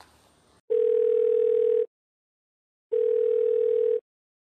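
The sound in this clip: Ringback tone of an outgoing prank phone call: two steady, pure mid-pitched tone bursts, each just over a second long, separated by about a second of silence.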